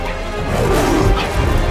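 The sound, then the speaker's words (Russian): In an animated Lion King fight, Mufasa strikes and flings hyenas, heard as a loud, dense rush of crashing, thudding blows and scuffling with no pause. “Муфаса, красавец-лев с внушительной гривой, прыгает в самую гущу гиен, разбрасывая их ударами мощных лап, хватая зубами и швыряя прочь.”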